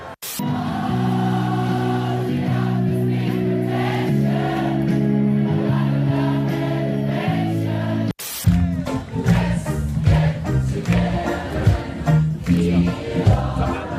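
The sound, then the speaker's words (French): Crowd singing karaoke together in a Berlin park: a sustained chorus of many voices holding steady, harmonised notes, loud and continuous, with a brief break about midway before the singing resumes more unevenly. “Il y a un truc vraiment marrant, c'est quand le public se met à chanter, ça sonne toujours vachement bien.”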